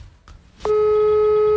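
A telephone line tone sounds during a phone-call game. After a brief faint stretch, a steady, mid-pitched tone starts abruptly and holds unbroken to the end.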